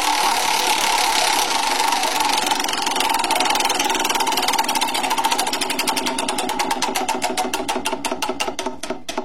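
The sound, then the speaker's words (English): A prize wheel spins, its pointer ratcheting in a rapid stream of loud clicks that gradually slow and spread apart toward the end. “It is called The Wheel of Surprise. We spin the wheel, find out what story's next.”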